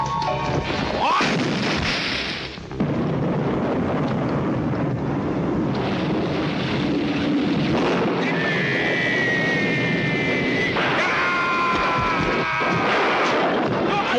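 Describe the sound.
Thunder, wind and rain of a storm in a martial arts film scene, heard as a steady, loud roar of rushing wind and rain throughout, with a few heavy low booms and some thin whistling tones above.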